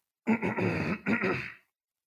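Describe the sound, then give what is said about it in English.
Throat clearing: two rough, voiced bursts in quick succession, the first longer than the second, fairly loud and with no talk over them. “Sorry, I've got something in my throat.”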